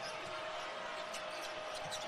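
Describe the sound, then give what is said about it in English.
A basketball being dribbled during a Houston versus BYU game, the bounces blurred into a steady wash of background noise with no distinct beats standing out. “We'll drive it to the top of the arc. Still on the dribble”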